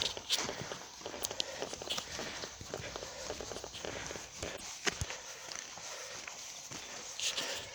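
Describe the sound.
Footsteps of a hiker in soft-lined Salomon running shoes walking a trail through a warm, partly logged forest. Many steady, fairly quiet steps with a few louder impacts.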